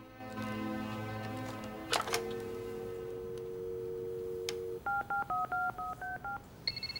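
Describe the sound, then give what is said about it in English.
Touch-tone dialing beeps as a redial button is pressed on a bedside telephone: a quick, even run of short, clear paired tones at shifting pitches, following a stretch of steady tonal hum. “Next, she picks up the phone at Lou's bedside and presses redial.”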